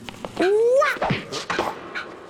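A dog lets out one brief, rising whine that stands out clearly against a quiet background.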